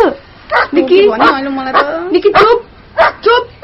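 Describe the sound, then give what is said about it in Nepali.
A dog barks repeatedly indoors near a gate, letting out several sharp barks mixed with higher whimpering yips. The calls come in loud, uneven bursts with short gaps between them. “यो भुक्नु बन्द गर्छ”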